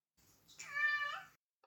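A cat meows once, a drawn-out, fairly faint harmonic call that begins softly and swells before tapering off, heard alone.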